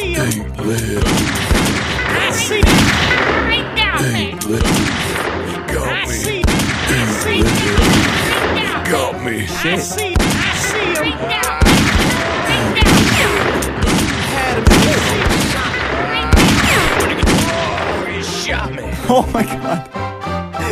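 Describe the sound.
Gunfire in a shootout during an ambush: many loud, sharp shots and heavy booms in rapid, irregular bursts, mixed with continuous loud noise, while voices shout throughout.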